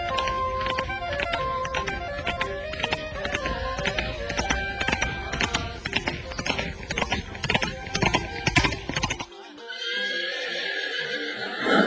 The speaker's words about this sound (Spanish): El joven volvió a cabalgar.